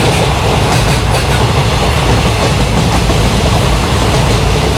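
Train travelling on rails: a loud, continuous rumbling roar of wheels on track with a rattling, faintly rhythmic clatter running the whole time, no voices.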